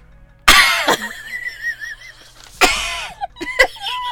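A person imitates a small dog choking and coughing after drinking too long. Several loud, harsh hacking bursts are separated by strained, wheezy voiced sounds.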